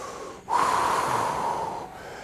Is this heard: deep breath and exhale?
yes